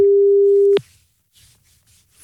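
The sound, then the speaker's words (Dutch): Dial tone on a telephone line as a call is being placed: a steady, loud, low hum sounds alone, then cuts off with a click, followed by a few faint soft noises. “Als je twee keer een nul intoetst, dan gebeurt er niet zoveel met een telefoonlijn. Maar ik wil even checken of ik Marjan kan bereiken.”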